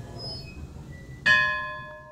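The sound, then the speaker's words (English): A bell in the artist living quarters of an art gallery is struck once after a quiet stretch, giving a sudden bright metallic clang with clear ringing tones that slowly fade. “And a bell. And a bell.”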